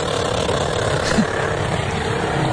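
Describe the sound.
A car engine runs for burnouts, giving a steady, even low drone at constant loudness with no clear revving.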